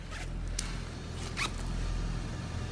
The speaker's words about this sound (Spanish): Te baja la cremallera.